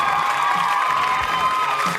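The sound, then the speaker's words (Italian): Audience applause mixed with some cheering, a dense, steady wash of clapping that stays loud and even for about two seconds. “Anche lei, applausi, applausi.”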